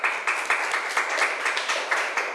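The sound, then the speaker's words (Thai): Students clap for a classmate in a classroom, and the quiet clapping falls into a regular beat with sharp accents recurring about four times per second over a softer bed of claps. “ขอบคุณค่ะปรบมือให้เพื่อนหน่อย”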